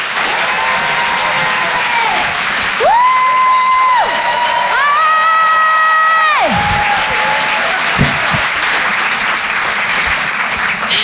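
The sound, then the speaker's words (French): Comedy club audience applauding and cheering as a performer is welcomed: a dense, steady wash of clapping and crowd noise that holds at a constant loudness from start to finish, with no talk over it. “Je vous demande de l'accueillir, de faire un maximum de bruit, s'il vous plaît, pour Thaïs.”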